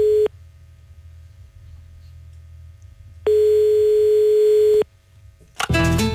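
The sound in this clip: A telephone ringback tone sounds on a line after dialing a call to a private residence. The tail of one steady tone ends, followed by a silent gap and then one long, even tone of about one and a half seconds. A voice answers right after.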